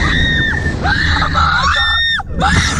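People scream on a roller coaster at an amusement park. Shrill, wavering cries rise and fall, several overlapping in loud bursts over a low rumble.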